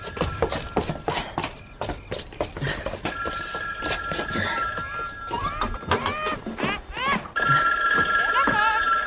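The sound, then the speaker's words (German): A telephone bell rings in bursts, its bright trilling tone starting and stopping amid a clatter of knocks, thumps and other busy noises. The ringing grows louder and steadier toward the end. “Das Telefon.”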